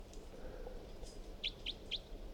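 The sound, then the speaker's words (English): Three short, bright bird chirps at an even pace, each a quick high note standing out over a soft, steady background hiss. “So recording bird 362.”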